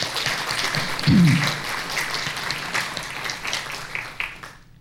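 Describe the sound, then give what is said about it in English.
Audience applause at a New York Historical event, a steady wash of clapping that holds for several seconds before quickly falling away at the end. “Let's just give them a hand.”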